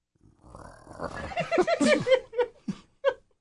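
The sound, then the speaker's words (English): A voice growling for a sock puppet: rough, throaty vocal bursts that build into a choppy run of grunts, then break into a few short separate growls before stopping. “He loves it when the sock puppet growls.”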